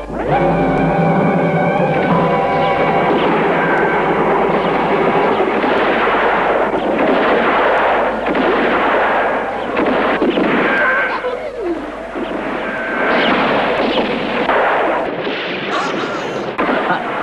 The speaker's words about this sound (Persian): یادت باشه بهشون صدمه نزنی فقط با تیراندازی اونا رو بترسون و فراریشون بده